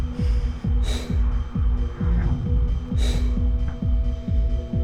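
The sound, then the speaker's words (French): Heavy breathing as someone catches their breath: two strong gasping breaths stand out over a steady, rapid throbbing pulse that runs throughout. “Je reprends mon souffle. Je dépose ma tête dans mes mains.”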